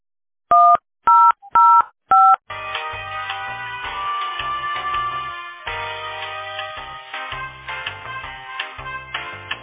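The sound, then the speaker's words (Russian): Four short telephone keypad tones dial an extension number in quick succession, then a steady, busier layered tonal sound takes over and runs continuously to the end. “Если вы знаете внутренний номер сотрудника, наберите его. Или оставайтесь на линии.”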